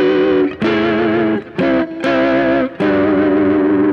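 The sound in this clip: Electric guitar through a distorted, staticky effects tone plays a few sustained notes separated by short gaps, each wavering with a shaky vibrato.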